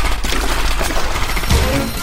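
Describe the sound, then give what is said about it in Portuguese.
A burst of Thompson submachine gun fire in a gangland shooting, a dense continuous crackle of rapid shots with a heavier low thump near the end. “As rajadas das submetralhadoras Thompson fuzilaram o bando de Moran.”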